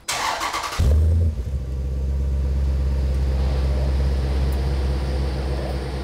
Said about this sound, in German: Gib mal Gas. Ganz anderer Klang.